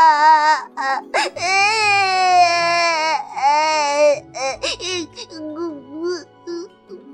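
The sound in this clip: An infant cries while being held, kicking its legs: several loud wailing bursts with wavering pitch, including one long sustained wail, then shorter broken sobs and whimpers.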